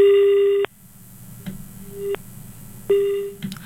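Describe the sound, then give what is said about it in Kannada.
Disconnected telephone call tone: a steady, mid-pitched electronic beep repeating at regular intervals, with three bursts over faint background hiss. “ಸಂಪರ್ಕ ಕಡಿತಗೊಂಡಿದೆ.”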